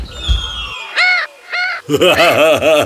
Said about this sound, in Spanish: Un día, caminando por el bosque, vio un loro posado en un árbol.